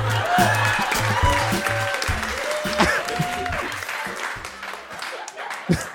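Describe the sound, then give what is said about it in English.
An audience applauds a comedian at a comedy show, dense steady clapping filling the whole stretch, with voices heard over it. “Give it up for Nikolai.”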